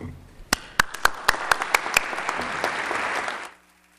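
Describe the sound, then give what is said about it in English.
Audience applause that starts with a few sharp, separate claps and swells into dense, steady clapping for about three seconds before cutting off abruptly. “we applaud him for that”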